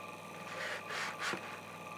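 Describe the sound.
An iMac CPU cooling fan spins at about 2400 RPM, giving a steady whirring hum with a thin constant whine over it and a few soft breathy swells of air noise.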